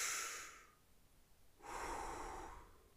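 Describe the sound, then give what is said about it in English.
One slow, deep breath: a soft, airy inhale fades out, then after a short pause a long, breathy exhale follows, both quiet and alone. “So we'll do one deep breath and then we're going to do the hold one. So breathe in and out.”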